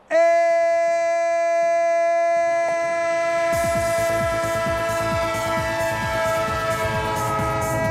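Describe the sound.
Train horn holds a long, loud sustained chord throughout, joined partway through by steady rhythmic clickety-clack of wheels on rails.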